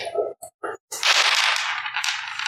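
A twelve-sided die is rolled during a tabletop role-playing game: a few quick clattering knocks, then a sustained rattling roll that carries on to the end.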